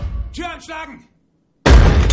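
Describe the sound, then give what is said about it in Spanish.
A grenade explosion covered by a shield in an action film: a voice speaks briefly, a short silence follows, then a loud, dense, bass-heavy burst of noise erupts and holds to the end. “Steve repele una granada con su escudo y cubre otra con él.”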